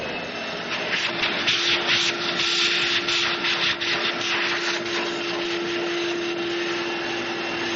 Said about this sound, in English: I guess vacuum cleaner. No, vacuum cleaner. Here you go.